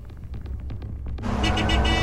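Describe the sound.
A car engine drones on the road as the car overtakes other vehicles, growing noticeably louder and fuller about halfway through and then holding steady.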